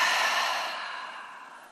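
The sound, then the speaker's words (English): A single long exhale through the mouth during a standing yoga breathing exercise: a soft, breathy rush of air that starts strongest and fades gradually over nearly two seconds. “Inhale. Breathe out your mouth.”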